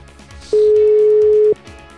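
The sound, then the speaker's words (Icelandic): A steady telephone tone, sounding as the next caller is dialed, holds one even mid pitch for about a second and stands out loudly above a quiet background. “ég ætla að hringja næsta símtal”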